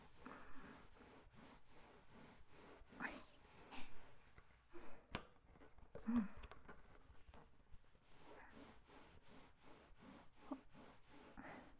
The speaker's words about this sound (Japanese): ワックスをタオルにつけて、こんなもんかな。しっかりとボールを磨いて。